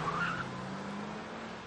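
A car on a tree-lined road gives a brief tire squeal as it brakes hard, then a steady low engine drone that holds to the end.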